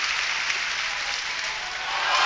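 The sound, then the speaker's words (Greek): A crowd applauds Miltos Tentoglou before his fifth attempt with a steady, dense wash of clapping that stays even and swells slightly at the end. “Και ακούς το χειροκρότημα τώρα και από τον κόσμο που χειροκροτεί για τον Μίλτο Τοντόγλου.”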